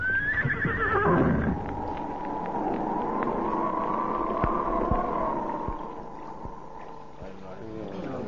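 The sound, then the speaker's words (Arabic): A horse neighs once at the start, a loud, high whinny that falls in pitch, urged through sea waves. A steady low drone and a few soft thumps follow for the rest. “بس يلا يا حصان، شق الموج اوام اوام اوام”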